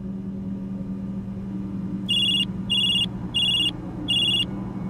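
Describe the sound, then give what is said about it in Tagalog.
A mobile phone rings with four evenly spaced bursts of a bright, high electronic ringtone over a low steady background hum, starting about two seconds in. “Hindi pa nakakalipas ang sampung minuto, nag-ring na bigla ang cellphone ko.”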